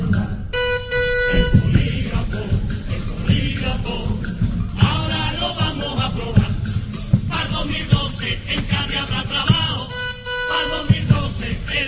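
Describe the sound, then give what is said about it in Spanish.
A loud horn blares as a lie-detector alarm, sounding in two short bursts, one near the start and one near the end, over a dense, busy background. “Les presento el polígrafo 2000, era auténtico detector de mentiras. Si alguien miente en un juicio, sonaría esta bocina.”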